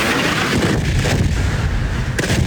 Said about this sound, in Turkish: Patlama sesleri dört bir yandan yükseldi.